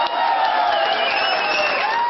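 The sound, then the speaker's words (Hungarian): Crowd applause from delegates at a liberal party congress, a dense, sustained roar of clapping and cheering that holds at a strong, even level throughout. “Ekkora tapssal reagált a küldőgyűlés, amikor Retkes Attila megkérte Kóka Jánost, a legrövidebb időn belül mondjon le frakcióvezetői posztjáról.”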